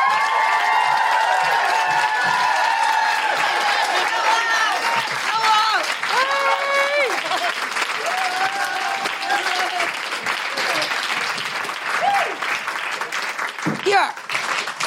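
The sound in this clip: An audience applauds and woohoos for a comedian coming on stage. Steady, dense clapping runs throughout, with high whooping voices sliding in pitch over the first few seconds before the clapping thins near the end.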